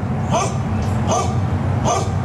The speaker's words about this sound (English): Those dogs are saying, please help us.